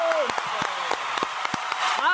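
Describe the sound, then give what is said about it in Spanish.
A talk show studio audience applauds a guest's arrival: steady clapping runs beneath people talking excitedly over it. “¡Aplausos! ¡Aplausos ya de veras, la verdad, eh!”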